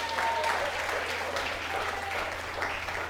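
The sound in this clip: Applause from a crowd at a church gathering during a sermon, a steady, dense clapping that holds at an even moderate level from start to finish.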